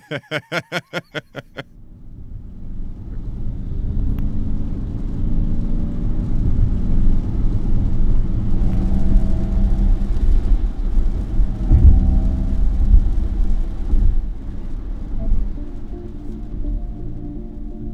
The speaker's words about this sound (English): That's an artificial propulsive sound. And it's, we took the Mach-E out and drove it in Williamsburg,